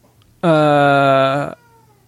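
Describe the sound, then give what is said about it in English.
An upset male cat gives a single long, loud meow, a sustained harmonic cry lasting about a second that holds a steady pitch and then cuts off, heard alone without talk. “is that a cat? It is. It's my cat. I don't know what his deal is. He's very upset, concerned.”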